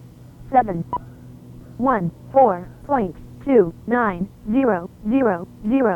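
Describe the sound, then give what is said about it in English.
Synthesized voice announcement from an ICOM 718 amateur radio transceiver: many short, clipped, robotic syllables read out one after another over a faint low hum. “Here's the ICOM 718. It can talk to you.”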